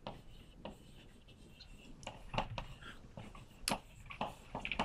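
Scratchy strokes of a diagram of a solid torus being drawn by hand, a series of short, faint marks in an irregular rhythm with a few sharper taps, and no talk.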